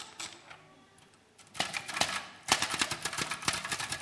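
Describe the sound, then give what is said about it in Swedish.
Fast typing on a keyboard starts faintly, then turns into dense, rapid clattering keystrokes that continue steadily to the end. “Snabb hon är på att skriva.”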